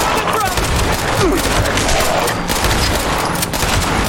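Continuous gunfire in a robot adventure game as enemies are shot at, aimed for their heads; loud, rapid volleys blur into a steady barrage across the whole clip.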